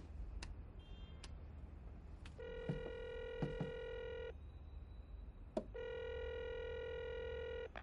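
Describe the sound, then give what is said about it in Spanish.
A mobile phone being dialed at night in a flat: a few soft keypad taps, then two long, buzzy electronic tones of about two seconds each separated by a pause, with faint clicks between. “Coge su móvil y marca.”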